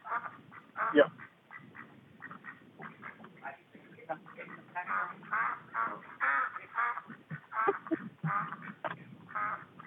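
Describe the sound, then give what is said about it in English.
Ducks quack in many rapid, nasal bursts that crowd together with barely a break, fairly loud and with a thin, muffled tone. “let the fucking ducks in”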